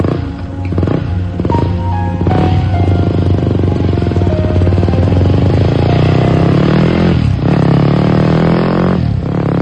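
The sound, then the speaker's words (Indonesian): A motorcycle engine warms up on a campus, a loud, continuous rumble whose revs rise and fall, with the pitch sweeping up and down a few times. “Budi yang sedang memanaskan motornya”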